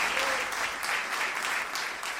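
Applause from an audience, a dense, steady wash of many hands clapping at an even loudness for the whole stretch, with no voices standing out.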